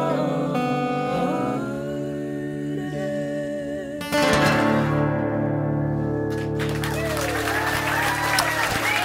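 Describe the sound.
Applause at the close of a small live concert performance: sustained musical tones ring out for about four seconds, then a burst of hearty clapping and crowd noise takes over and continues steadily to the end.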